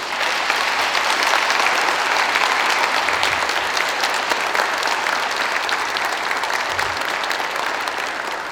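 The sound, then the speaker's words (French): A church audience applauds in praise of God after a healing service, with thick, continuous clapping held at an even, loud level for more than eight seconds. “Acclamons notre Dieu maintenant.”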